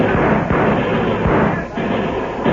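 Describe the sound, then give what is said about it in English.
Gunfire as homesteaders and cattlemen open fire on Texas gunmen in a shootout: a dense, loud, continuous barrage of shots and crackling noise with no clear pauses. “Tell the homesteaders and cattlemen to open fire. Right now. Now, boys! Open fire on those Texas killers!”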